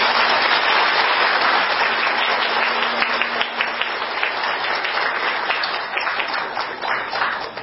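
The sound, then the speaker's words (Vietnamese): Audience applause for a lecturing monk after a Buddhist dharma talk in a hall, a dense, sustained crowd of clapping hands that stays loud and steady throughout, easing slightly toward the end. “kính thỉnh toàn thể đạo tràng đảnh lễ thầy giảng sư bằng một tràng pháo tay với đầy lòng biết ơn và cung kính.”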